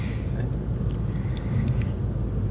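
A car being driven gives off a steady, low engine and road rumble. The deep drone stays even throughout, with no voices over it.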